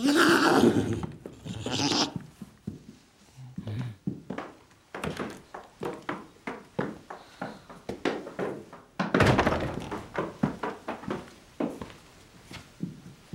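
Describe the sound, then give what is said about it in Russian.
Hoof steps of a small horse walking around a room: many regular soft thuds in a steady plodding rhythm, with louder noisy bursts at the start and midway. “По комнате гуляет маленькая лошадка.”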